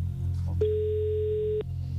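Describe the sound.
Telephone ringback tone heard as a radio host calls a listener: a single steady, mid-pitched beep lasting about a second, cut off sharply, over a constant low hum.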